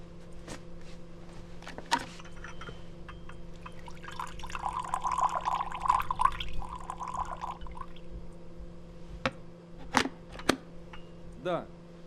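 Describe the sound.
Water from a freshly boiled kettle pours into a cup with a soft, gurgling trickle that swells in the middle and then fades, faint beneath a low steady hum, with a few scattered clicks around it.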